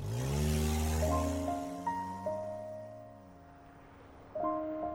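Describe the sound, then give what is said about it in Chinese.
A car starts up and drives off. The engine's steady hum climbs in stepped rises as it pulls away, then it settles and lifts again near the end, with no one speaking. “车子一启动”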